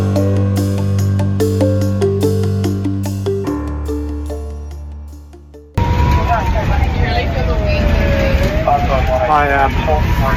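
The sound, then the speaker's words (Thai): Inside a moving ambulance heading to a call in Adelaide's northern suburbs: music fades out, then loud, steady road rumble takes over with a wavering siren-like tone sweeping above it. “I'm just on an ambulance at the moment with”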